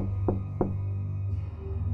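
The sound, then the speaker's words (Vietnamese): Two knocks on a toilet door in quick succession, fairly faint, over a steady low hum with no voices. “bỗng dưng tôi nghe ở ngoài cửa toilet có tiếng gõ cửa”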